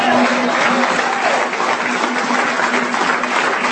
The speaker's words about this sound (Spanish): ¿Cuánto le dan ese aplauso al Dios de gloria? ¿Cuántos le aplauden al Dios de gloria, hermano?